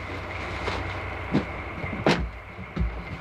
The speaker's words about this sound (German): Planmäßig muss der Zug jetzt auf den Bahnhof von Carlisle einfahren.